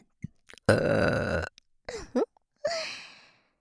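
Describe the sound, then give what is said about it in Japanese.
A woman burps close to the ear: two long, rough, drawn-out belches with a few short gulps and grunts between them, loud against silence. “しかも耳元でお姉さんの濃厚生ゲップじゃないと満足できないんですよね。”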